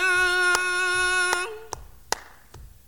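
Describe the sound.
Hand claps keeping time for a solo singer in an unaccompanied song at a 1962 live concert: a long sung note rings out, then stops, while crisp, evenly spaced claps continue alone.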